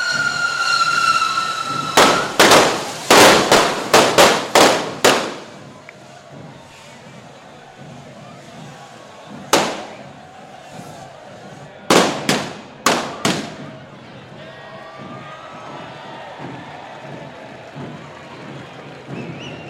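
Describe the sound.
Firecrackers going off at a crowded street festival as the fire dragon is lit for the first time: a rapid run of loud sharp cracks, a lone bang, then another quick cluster, with voices in the background.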